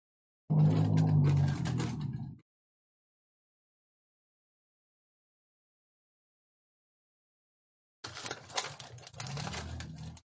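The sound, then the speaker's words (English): Rapid machine-gun fire in a video game comes in two sustained bursts of about two seconds each, separated by a long stretch of silence. “Apparently a machine gun is better than a butcher's knife here.”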